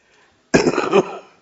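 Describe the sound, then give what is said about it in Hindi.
A single harsh, breathy cough from someone with a persistent cough, bursting out loud after near silence and trailing off within about half a second. “तो मुझे काफी खांसी है, कुछ पता नहीं कब शुरू हो जाएगी।”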